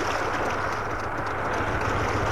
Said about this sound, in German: Schon am nächsten Morgen startete ganz früh ein Motorboot mit ihnen zur Insel Tamis.